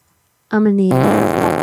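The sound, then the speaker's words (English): A loud fart opens with a low, buzzy, vibrating tone and breaks into a longer, noisy, sputtering tail that runs to the end. “Did you just fart?”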